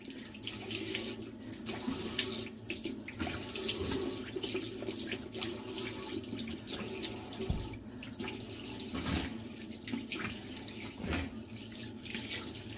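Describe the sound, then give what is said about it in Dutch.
Tap water runs steadily into a sink while a face mask is rinsed off the skin, giving a continuous splashing stream with small irregular spatters and gurgles throughout. No one speaks. “Even afspoelen.”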